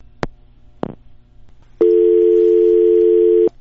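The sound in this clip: Telephone line tone after a call is cut off: two sharp clicks, then a loud, steady, unbroken tone that holds for nearly two seconds and stops abruptly.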